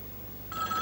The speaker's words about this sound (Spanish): Está llamando a su casa